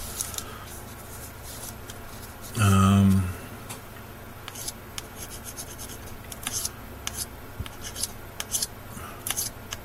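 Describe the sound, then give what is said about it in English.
A sharp knife scrapes flashing off the edges of a piece, making many short dry scratching strokes. They are irregular, faint and rasping, with one brief louder burst early on. “what you do is you scrape that flashing off. And you feel your way around the edges”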